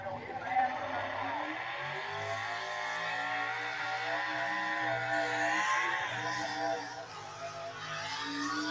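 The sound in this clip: Race car engine at an Outlaw racing show, a loud, steady, sustained drone with harmonic tones that hold nearly level, with no clear separate passes.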